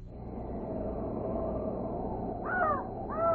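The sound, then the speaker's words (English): A raven croaks twice near the end, giving harsh, hoarse calls over a steady low rumbling background. “Listen. What? I only hear a raven croaking.”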